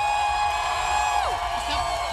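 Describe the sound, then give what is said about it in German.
Concert crowd cheering and whooping after a live music set, a sustained wall of steady, loud crowd noise lasting throughout with a few whoops rising above it. “Einen großen Applaus nochmal, könnt ihr nochmal laut sein?”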